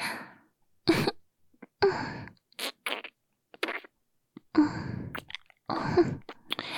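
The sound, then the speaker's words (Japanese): Wet, close-up mouth and licking sounds of ear licking in ASMR come in a series of short, separate bursts, with brief silences between them and no voice. “あれ？耳舐めされるの初めてかな？”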